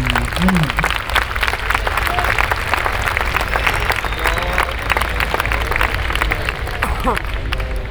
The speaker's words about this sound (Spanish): ha llegado ya Carlos Taibo, así que le damos un aplauso